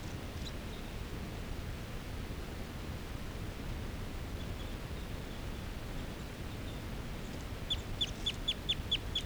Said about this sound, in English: Fighting calls just happened. This is a call of a male who's right next to bird 378.